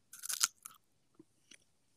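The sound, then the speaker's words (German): Someone bites into a pear with a crisp, crunchy snap, followed by a few faint, soft chewing sounds. The whole clip is quiet, with no talk. “jetzt kann ich endlich wieder genüssliche die Birne beißen”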